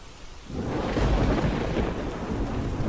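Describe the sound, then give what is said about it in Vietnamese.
A thunder crash with lightning in a storm breaks in after a brief quiet moment, then rolls into a loud, sustained low rumble over a hiss like rain, with no voices. “thì đùng một tiếng, sấm sét trên trời vừa động, kéo theo một làn chớp xé toạc cả tầng không.”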